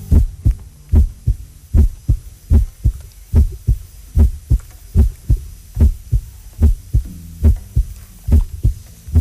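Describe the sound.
Recorded human heartbeats from a sound art piece thump in a steady, even rhythm. Many soft, low, muffled beats repeat at regular intervals, each followed by a faint hum, with no voices.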